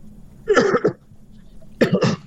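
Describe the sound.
A caller coughs over a phone line in two separate bouts, each made of a couple of rough, throaty bursts, with a short quiet gap between them.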